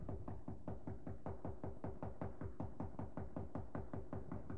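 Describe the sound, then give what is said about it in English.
Knuckles rap on a door in a long, steady run of many quick, evenly spaced knocks, fairly faint and with no voices. “When you knock, you stand at the door and you keep rapping on the door”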